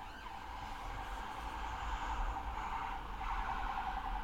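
A vehicle passing by, a steady broad rumble and hiss with a faint siren-like tone above it, holding fairly even in loudness with no voices.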